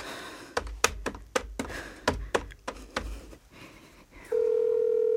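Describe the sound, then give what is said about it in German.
Phone keypad taps while dialing a call that goes unanswered: a quick, uneven run of many sharp clicks, then a brief pause and a loud, steady single-pitched tone at the end as the line starts to ring. “Mach schon, nimm ab. Warum nimmt er nicht ab?”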